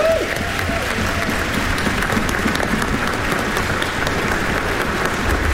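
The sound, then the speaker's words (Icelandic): Dense, steady audience applause at a concert with children's choirs and a symphony orchestra, honouring the song arranger. It sounds as a continuous, even roar of many hands that holds at full strength throughout. “Og við skulum gefa Hrafnkeli Orra sem útsetti lögin svona fallega gott klapp. Bravo!”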